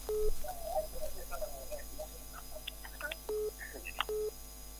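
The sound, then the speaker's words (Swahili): A telephone tone sounds after a caller hangs up on a phone-in quiz line: three short, steady beeps at a middle pitch, spaced apart, with faint chirps and a low mains hum between them. “Haya, huyu ameshindwa swali, ameamua kukata simu.”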